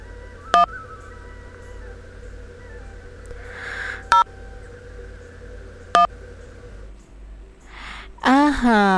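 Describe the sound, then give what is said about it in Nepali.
Electronic tones sound on a telephone line as a caller's phone disconnects. Three short, sharp beeps are spaced about two seconds apart over a low, steady line hum, and a louder burst of other sound follows at the very end. “Phone disconnect भइसकेको छ भन्नुभएको छ हाम्रो अरुणजीले.”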